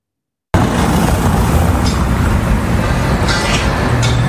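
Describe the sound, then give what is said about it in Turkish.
Road traffic and a city bus driving over a building's roof, heard as a loud, continuous rumble and roar that starts abruptly after a brief silence and holds steady throughout. “Çatısından kiremit yerine asfalt, üst komşu yerine belediye otobüsü geçiyor. Bu binaların çatısından bildiğiniz trafik akıyor.”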